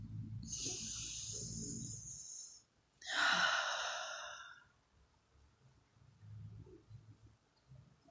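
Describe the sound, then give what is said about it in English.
A deep breath taken during a calming exercise: two long, airy, hissing breath sounds, the second louder and fuller, with quiet low rumbling in the background and no talking. “Let's do that now. Deep breath.”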